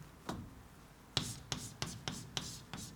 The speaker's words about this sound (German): oder ich schreibe es gleich hin